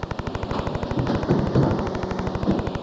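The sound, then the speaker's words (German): Rapid, loud, steady rattling clatter of a high-tech circular-saw cutting line in a sawmill, processing round logs, with sharp mechanical pulses repeating in quick succession without a break. “3 Millionen Mark hat die hochmoderne Kreissägen-Einschnittanlage gekostet. Pro Minute zerteilt sie 4-mal so viel Rundholz wie das klassische Werk.”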